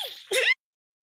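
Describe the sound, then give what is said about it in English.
A single sneeze: a short breathy intake that bursts into one sharp, bright expulsion, then cuts to silence. “Sorry, that sneeze just came out of nowhere”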